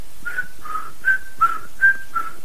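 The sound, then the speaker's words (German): Whistled tune of six short, clear notes in a steady rhythm. The pitch steps slightly up and down between notes, and the whistle is fairly soft with no talking. “Ich kann mit meiner Atemluft Musik machen, ob beim Pfeifen”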